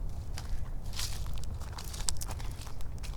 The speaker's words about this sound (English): I just want to walk through here because normally this area is now just weeds. Or it's just tall grass or something.